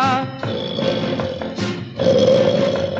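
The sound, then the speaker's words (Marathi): A lion roars in a loud, rough, sustained growl that swells and eases, with a strong burst near the end and no voices. “महाभयंकर सिंह एकदा गुहेमध्ये निजलेला.”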